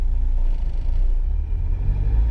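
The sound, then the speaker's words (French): A car pulls away smoothly from a traffic light as the driver presses the accelerator. A steady, low engine rumble runs throughout, with no voices. “Le feu passe au vert. Nathaniel presse l'accélérateur et démarre en douceur. Il tourne sur sa droite, puis s'engage à nouveau sur la rue du Centenal.”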